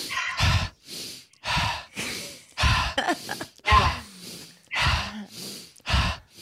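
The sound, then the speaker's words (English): Deep breathing during a guided session: many big, whooshing inhales and exhales follow one another in a steady rhythm, each breath a broad airy burst separated by short pauses. “So take a big inhale and then exhale. Keep it going.”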